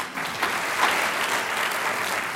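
An audience applauds to welcome author Roger Lowenstein, who wrote a book on pension debts. The clapping is even and sustained throughout, a dense wash of hand claps without a break.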